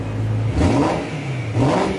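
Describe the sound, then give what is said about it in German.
A Ferrari racing car engine revs hard twice over a steady mid-pitched idle, each rev rising sharply then settling back, loud and without voices. “Ja, Ferrari, das steht für Rennautos, teure Autos auf unseren Straßen.”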